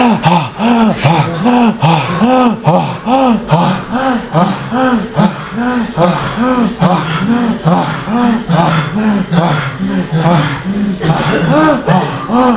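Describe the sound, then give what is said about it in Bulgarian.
Loud breathing in and out through the mouth, voiced and audible on each breath, in a quick, steady rhythm of repeated huffs that continues throughout. “Звук. Добави звук. Дишай със звук. Пусти всичко.”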